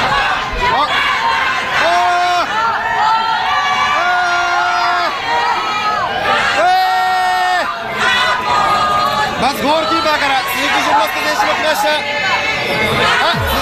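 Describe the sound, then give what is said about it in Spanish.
Fans cheer and shout as they welcome the Japan football team in Monterrey, a busy mix of excited voices, high-pitched shouts and chatter that continues throughout. “Señores, así recibieron a Japón el día de ayer en Monterrey. Escuchemos.”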